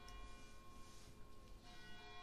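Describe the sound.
Church bells strike three o'clock from a bell tower, ringing with sustained metallic tones that blend with noisy background sound; no people talk.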